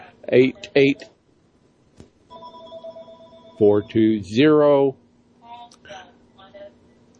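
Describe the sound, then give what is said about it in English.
Telephones ring in a busy office behind the talk: steady electronic ringing tones with bright harmonics sound for a few seconds among stretches of conversation. “Busy office this morning. Yeah, it sounds like you got phone calls coming in the background”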